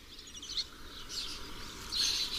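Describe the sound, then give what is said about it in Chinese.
Fledging yellow-clawed falcon chicks beg their parents for food in the countryside, giving thin, high-pitched calls in a few faint bursts over a steady background hiss. “黄爪隼的雏鸟如今羽翼渐丰，它们不停地向亲鸟讨要食物。”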